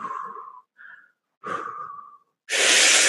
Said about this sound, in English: On the last breath that you take in, I want you to make noise where I can hear it and you can hear it